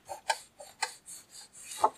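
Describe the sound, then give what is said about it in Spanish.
A cloth rubs moisture off a woodwind instrument key in several short, soft, scratchy strokes with small gaps between them, heard alone without talk. “abro la llave y paso el trapo por aquí. Cierro un poquito, le quito la humedad y listo.”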